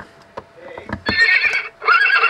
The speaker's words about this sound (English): A horse.